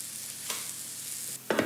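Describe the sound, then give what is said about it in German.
Food frying slowly in a pan with a little oil makes a steady, soft sizzle throughout, with a brief louder crackle near the end. “sind schon in der Pfanne und braten langsam vor sich hin.”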